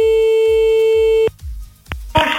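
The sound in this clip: A telephone line gives a steady, high tone after a call is cut off, holding for over a second before stopping abruptly, followed by a few sharp clicks and a burst of hiss.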